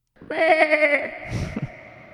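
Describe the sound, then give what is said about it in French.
A goat or sheep bleats in the countryside, one quavering, pulsing cry of under a second, followed by a softer, breathy rustling tail. “Puis là, t'entends la chèvre ou le mouton”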